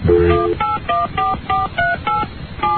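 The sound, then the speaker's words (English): Telephone keypad dialing tones ring out as someone dials a call to their parents: a quick, steady series of many short, bright, clean beeps separated by brief gaps, each holding a steady pitch, with no talking. “All right, hold on. Let me dial up mom and dad.”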